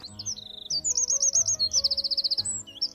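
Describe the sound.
A small bird chirping on a branch in the morning, rapid bright high-pitched notes strung into quick trills and repeated phrases, lively and continuous over a soft low background.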